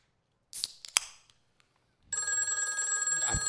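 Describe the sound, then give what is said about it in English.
A telephone rings late at night during a gathering with drinks, a bright, sustained metallic bell tone. It starts abruptly and continues to the end, after a few brief clicks and clinks in the quieter first half. “Who could it be at this hour? Another lady caller, I'm sure. Let it go to our new answering machine.”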